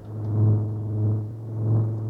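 Deep engine rumble from a hot-wired Chrysler Hemi boat engine revving, swelling and easing three times in a steady low throb with no voices.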